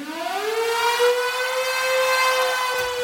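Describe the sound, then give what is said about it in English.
A storm siren wails at the opening of a live 1970s rock song. Its tone climbs sharply at first, then holds a loud, steady, harmonic-rich pitch, alone and without voices. “Let's go with a song that opens with a storm siren”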